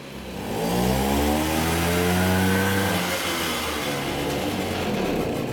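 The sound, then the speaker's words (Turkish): An engine revs under the throttle, running again after a dirty spark plug was cleaned and sitting on spring mounts; it makes a loud, sustained mid-pitched roar with climbing harmonic tones that then hold steady, with no voices. “Gaza bastıkça motor oynuyor.”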